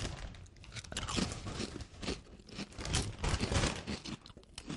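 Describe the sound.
Cheddar and onion crisps being crunched and chewed: many crisp, crackly bites in an uneven run, moderately loud and close, with no talking.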